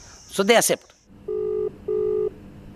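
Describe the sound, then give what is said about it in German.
Two steady, even electronic telephone tones, each about half a second long and separated by a short gap, sound as a phone call is placed, just after a brief spoken phrase. “Ein Anruf bei Namita Bandare.”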